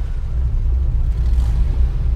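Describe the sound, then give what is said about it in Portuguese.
A car engine rumbling steadily at low pitch, loud and even throughout, with no voices over it. “Já que sabes conduzir, então agora acelera. Diz lá assim: acelera, carro. Acelera, carro.”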